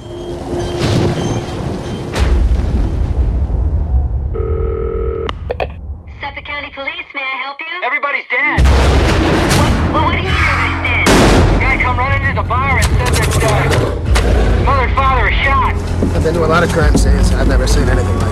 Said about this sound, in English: He takes aim and fires.